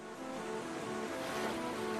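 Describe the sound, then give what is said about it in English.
River water rushing among rocks: a steady, dense roar of churning and splashing that holds at an even loudness throughout. “A river flows among rocks.”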